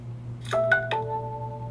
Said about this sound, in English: that's my phone chiming for us for some reason